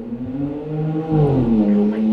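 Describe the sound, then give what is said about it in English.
A loud car drives past, its engine a heavy, droning hum whose tone wavers and shifts in pitch as it swells toward the middle and stays strong to the end. “Oh my God, that car was so loud.”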